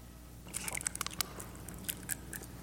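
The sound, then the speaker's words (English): Faint crinkly crackles and small snaps come from a church audience peeling open communion cups for the Lord's Supper. Many scattered, overlapping bursts, with no talk. “Peel your cups open.”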